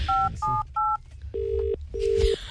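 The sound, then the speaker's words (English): A telephone number is dialed as five short keypad tones in a quick, evenly spaced sequence. The first three are higher and the last two lower and longer, all clear and loud. “I want to call an eyebrow place now to see if you guys have made the right decision according to an eyebrow person. So he's gonna dial Jono.”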